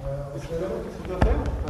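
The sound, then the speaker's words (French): A basketball is dribbled on the floor during a practice drill for a group of adults, with a few bounces and one heavy thump standing out over voices talking. “Chacun, il faut dribbler. Ouais. Dribbler, c'est. Ouais. Je pousse fort le ballon par terre et on y va, d'accord ?”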